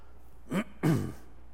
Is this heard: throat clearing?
yes